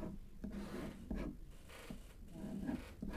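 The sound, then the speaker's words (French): A name is handwritten in Hebrew script, giving faint, scratchy strokes that come in a few short bursts with brief pauses between them. No one talks. “Regardez, je vais vous écrire son nom.”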